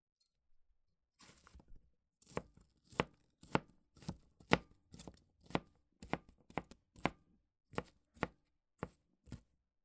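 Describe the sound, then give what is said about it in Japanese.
A knife chops an onion on a cutting board, making many sharp, crisp strikes in a fairly steady rhythm. The strikes are quiet and occur alone, with no talk. “玉ねぎを切っても全然涙が出ません。”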